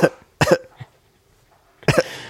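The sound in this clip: A few sharp coughs, short harsh bursts with brief pauses between them and a longer gap before the last one, heard on their own without talk.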